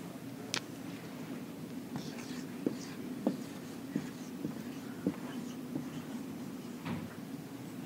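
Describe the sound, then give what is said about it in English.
Writing on a board as a Greek word is put up, with faint scattered ticks and short scratchy strokes spread over several seconds above a steady low hum. “This is an interesting Greek word. I'm going to write it on the board here.”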